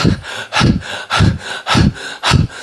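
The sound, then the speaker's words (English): A person pants heavily, acting out being totally out of breath, with five loud, rhythmic, breathy huffs at an even, quick pace. “panting, "But you are totally out of breath.”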